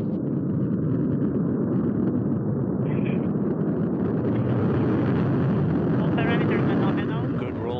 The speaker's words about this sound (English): Engine ignition, turbo pumps coming up to flight speed, and liftoff. Liftoff of Soyuz MS-19